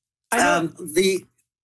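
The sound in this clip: A person clears their throat in one short, raspy burst in two parts, followed by silence.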